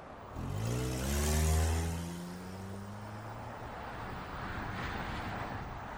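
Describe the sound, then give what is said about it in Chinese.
A white BMW car pulls away, its engine revving up with rising pitch for a couple of seconds, then fading into a steady rushing, wind-like noise. “关上门，小车一溜烟驶离了酒店。”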